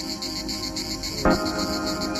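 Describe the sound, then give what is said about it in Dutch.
Crickets chirp steadily after dark in a village, a continuous high, pulsing buzz. A single soft thump cuts in briefly partway through. “De krekels laten van zich horen.”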